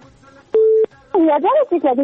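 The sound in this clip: A telephone number being dialed: a single steady DTMF keypad beep lasting about a third of a second, followed by a person speaking.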